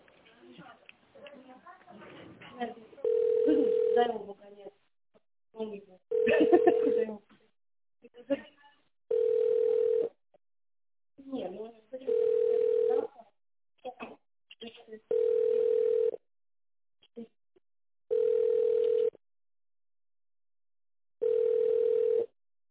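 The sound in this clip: A telephone line tone plays while a call is transferred to an accounting department. It comes as seven steady, low, even beeps roughly every three seconds, and a voice talks between the earlier tones.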